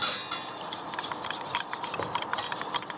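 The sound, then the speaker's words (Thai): A whisk stirs powder into liquid until it dissolves, making many rapid, light metallic clicks and swishes in a steady rhythm. “แล้วก็จะมีตะกร้อนะคะเอาไว้คนนะคะดูยังไงก็คือท่านผู้ชมลองดูค่ะให้เขาละลายให้ใสเลยนะคะแล้วก็ตัวที่เป็นผงอะค่ะจะไม่มีเหลืออยู่เลยนะคะ”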